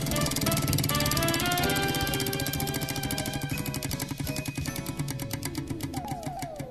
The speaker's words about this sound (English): All right. Spinning the wheel.